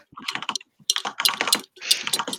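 Typing notes on a computer keyboard: quick, light key clicks in uneven runs, separated by brief pauses.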